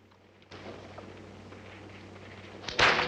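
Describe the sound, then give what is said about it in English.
A whip is slapped down to urge a horse forward, landing as a single sharp, loud crack near the end after a steady low background rumble. “Emma slaps down the whip”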